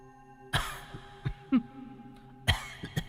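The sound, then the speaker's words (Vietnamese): An older woman coughs several times in short, spaced bursts, fairly faint over a steady low hum. “vóc dáng và tiếng ho đó thì Kha làm sao có thể quên”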